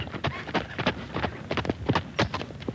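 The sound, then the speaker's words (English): Hooves of a horse carrying an approaching rider clip-clop in a steady rhythm, many sharp hoofbeats in quick succession with no talk over them. “Approaching the house, I saw a horseman riding toward me. As he got closer, I recognised John Willoughby”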